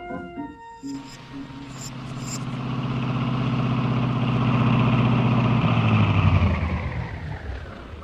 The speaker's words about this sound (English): what are we stopping on this lonely road for? Gee, it looks like I'm out of gas.